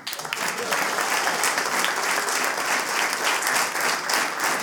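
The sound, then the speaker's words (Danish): An audience at a live comedy show in Vejle applauds to welcome a guest onto the stage. The clapping swells quickly and then stays loud and dense throughout. “Mine damer og herrer, giv en kæmpe stor til Tandfeen.”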